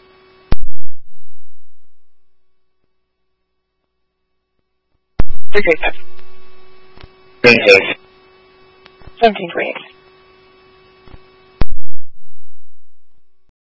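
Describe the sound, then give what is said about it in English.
Radio dispatch alert tones: a loud steady tone at the start that fades out, then a long sustained tone with short voice bursts over it, and another tone near the end. “Disregard these tones.”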